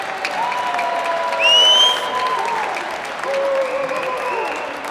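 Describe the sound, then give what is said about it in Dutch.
Diners at a Christmas meal applaud the kitchen staff with sustained, dense clapping throughout, while a few voices call out over it in tonal, rising and falling shouts. “Geef ze een groot applaus.”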